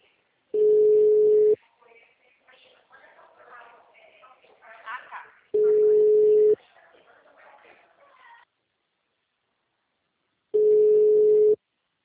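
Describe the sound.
Telephone ringback tone while a call is being placed: three steady, mid-pitched tones, each about one second long and spaced about five seconds apart, with faint, indistinct voice sounds between the first two.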